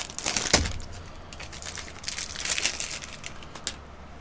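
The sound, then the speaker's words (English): Crinkling of a Chokito chocolate bar wrapper as it is unwrapped: soft, faint rustling with scattered crackles and one sharp crack near the start. “we'll start with the traditional Chokito bar. Mm-hmm. Um, what's your thoughts as you unwrap that?”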